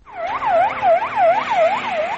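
An ambulance siren wails on an emergency run in Afghanistan after a bombing or armed attack, with a loud, steady, fast-repeating rise-and-fall warble throughout and no talk.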